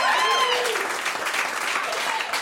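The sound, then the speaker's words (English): Audience applause at a stand-up comedy show: steady, dense clapping that stays loud and even from start to finish, with no voices standing out. “I think that deserves a round of applause.”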